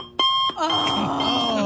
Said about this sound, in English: I did that alarm clock, too. It had like a red digital font.